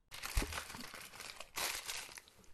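Crinkling and crunching as someone eats stage props in a theater: a steady dry rustle with a sharp low thump near the start, then a fresh burst of crackle about halfway through.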